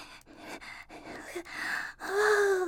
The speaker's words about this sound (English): I'm trying to remember to breathe. Inhale, exhale.